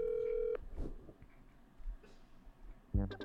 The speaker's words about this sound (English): That's my callback tone.